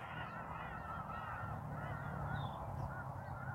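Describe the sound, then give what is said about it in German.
Birds call faintly in the background, a few soft chirps and caws scattered over a steady low hum, with no talking. “Du hörst die Vögel im Hintergrund, stimmen mir zu bei dem, was ich sage.”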